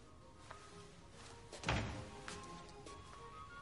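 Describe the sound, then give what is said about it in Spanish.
A bathroom door being opened gives one faint, dull thunk midway through, with a brief low rumble that fades away. Quiet shuffling surrounds it, and no voices are present. “Abre la puerta del cuarto de baño.”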